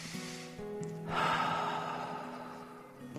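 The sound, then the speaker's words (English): A deep breath drawn in during a guided prayer, a soft airy rush that swells just after the start and slowly fades, quiet, over a low sustained musical drone. “Now take a deep breath.”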